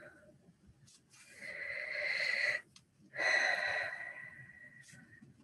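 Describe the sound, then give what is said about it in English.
A deep breath drawn in: a long, soft, airy hiss, then a brief pause and a second long breath sound. Both are quiet and there is no talk. “everyone take a nice big breath on that.”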